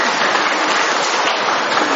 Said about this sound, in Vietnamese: Rồi cho một tràng pháo tay cho người bên Mỹ về.